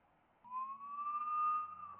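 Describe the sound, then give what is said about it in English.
A siren from Border Patrol Wagoneer SUVs in pursuit on a road. A single tone rises slowly and holds, moderately faint, with a low rumble underneath. “There's two Wagoneers, and they've got their sirens on, and they're Border Patrol.”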